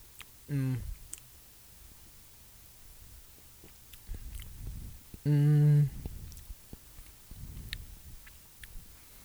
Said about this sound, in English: Now let me actually take a bite and then swig it with the beer.